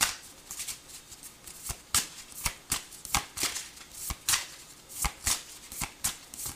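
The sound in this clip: Tarot cards are shuffled quietly, with many soft, papery riffling bursts in a fairly steady rhythm and no talking.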